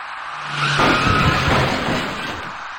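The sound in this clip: Tires screech as a taxi brakes hard at an intersection and strikes an electric bicycle rider. A loud, sustained skidding hiss runs throughout, with no voices.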